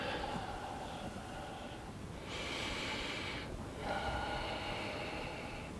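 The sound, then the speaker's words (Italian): Slow, deep breathing in and out during a guided floor exercise with stretching. Long, airy breaths swell and fade over a steady background hiss, and no one talks. “L'ultimo, inspiro, espiro.”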